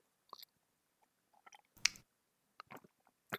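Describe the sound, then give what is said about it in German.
Sipping and swallowing a drink: a few faint, wet mouth clicks scattered across near silence, with one louder gulp in the middle. “Ich muss kurz was trinken.”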